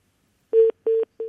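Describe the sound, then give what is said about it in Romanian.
Telephone keypad dialing tones: three short, steady electronic beeps at an even pace, the third cut off at the end, sounding alone with no voices. “Dacă tot formezi numărul de telefon, rămâi pe fir.”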